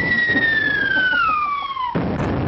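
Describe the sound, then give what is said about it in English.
A celebratory bomb-drop sound effect: a steady whistle slides slowly downward in pitch for about two seconds, then cuts off into a sudden, booming explosion that rumbles briefly at the end. “That is an inspiring story that really requires a celebratory bomb run.”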